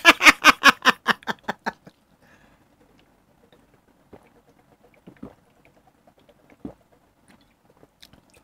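Chewing of a chewy, sweet-salty snack: a quick run of loud rhythmic bursts that fade over the first two seconds, then faint, scattered mouth clicks in near silence.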